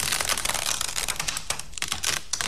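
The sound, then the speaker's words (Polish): Dense crackling and ticking of degraded, sticky, yellowed old film tape being unwound, a continuous rapid, irregular patter of small peeling snaps and clicks at moderate level, with no voices. “A degradacja takiej taśmy filmowej przebiega w taki sposób, że ona na początku żółknie, potem z taśmy schodzi obraz. Ta taśma staje się lepka. Zaraz posłuchamy, jak brzmi rozwijanie takiej taśmy.”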